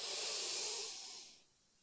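A slow breath out during a guided breathing exercise: a soft, airy hiss holds steady, then tapers away. It is quiet, with no voices.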